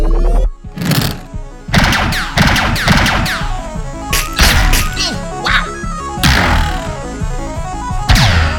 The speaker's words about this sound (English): Whoa! Energy blast! It's slowing me down!